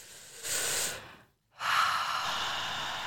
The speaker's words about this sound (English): I feel like we should all just take a deep breath. Do it together.